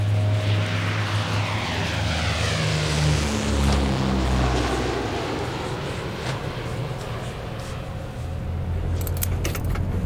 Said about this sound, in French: Après quelques atermoiements, à 14h18, le Fairchild a donc redécollé.